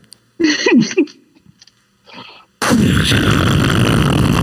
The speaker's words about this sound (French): le vaisseau explose vous avez l'alerte qui part.